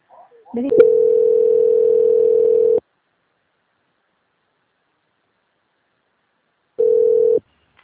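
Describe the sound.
Telephone line tone during a call transfer: a steady single-pitched tone holds for about two seconds, then silence follows before a shorter repeat of the same tone.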